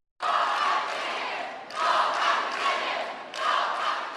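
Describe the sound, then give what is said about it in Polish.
Cheering from a crowd of 1300 Polish pilgrims welcoming Pope Benedict XVI: a sudden loud roar of many voices, swelling in three distinct surges, each one rising after a brief dip. “Żywiołowe powitanie Benedyktowi XVI zgotowało 1300 Polaków.”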